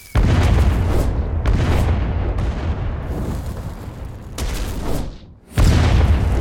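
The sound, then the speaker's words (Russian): Explosions from TNT cannons shelling homes at night in a Minecraft world: a series of loud, deep booms, each followed by a rumbling decay, with a brief lull before a final heavy blast. “Умудрились в диких землях неподалеку пристроить незаметно 3 ТНТ-пушки. И как-то ночью начали обстрел.”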